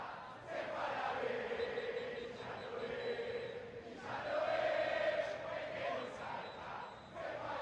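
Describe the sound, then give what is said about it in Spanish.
A Boca Juniors crowd roars and chants at La Bombonera during a match against Estudiantes: a sustained, dense wall of massed voices that swells loudest midway and then eases back slightly. “Bueno, festeja el público de Boca”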